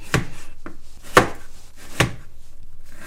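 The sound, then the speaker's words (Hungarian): Knife slicing a vegetable into 3-4 mm thick slices, a few crisp, separate cuts against a board at uneven intervals, fairly quiet with nothing else around them. “3-4 mm vastagra vágom őket”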